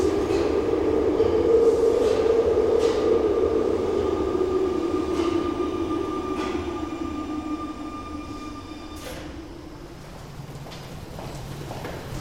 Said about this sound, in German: In diesem Moment fuhr auf dem gegenüberliegenden Gleis 6 ein Zug ein, dessen Fahrtwind wahrscheinlich das Sarin überall verteilte.